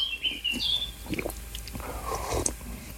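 Soft slurping mouth sounds of someone sipping hot coffee while sitting outdoors in the shade early in the morning, with faint bird chirps in the background.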